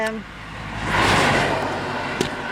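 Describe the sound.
Road traffic passes close by a roadside off route 63 near Forshaga, Sweden, as one vehicle's rushing noise swells loudly and then fades, with a voice briefly heard at the start.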